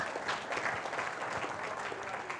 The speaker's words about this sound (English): Let's have a round of applause for Jack, please.